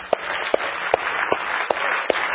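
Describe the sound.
A church audience applauds to welcome a speaker forward. The applause is a steady, dense wash of clapping, with a few sharper claps standing out at a regular beat.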